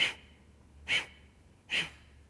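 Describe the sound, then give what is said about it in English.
Three sharp, forceful exhalations driven by abdominal contractions during pranayama breathing practice, evenly spaced loud bursts of breath with quiet gaps between them. “You're going to contract the abdomen to throw the breath out. Looks something like this. So a forceful contraction of the abdomen throws that breath out.”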